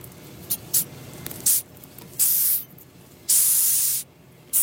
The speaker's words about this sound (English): That is the sound of a 10 centimetre long Madagascar hissing cockroach.